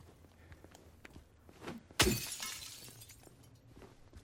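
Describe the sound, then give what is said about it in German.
A steel pipe smashes a car window in one sudden, loud crash of breaking glass, followed by a brief scatter of tinkling shards that fades within a second or two against a quiet background. “Ich habe ein Stahlrohr in der Hand und laufe auf eine Autoscheibe zu.”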